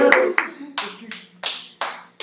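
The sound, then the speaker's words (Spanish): Slow applause: a handful of separate, crisp hand claps spaced evenly apart, each one sharp and distinct. “Un aplauso.”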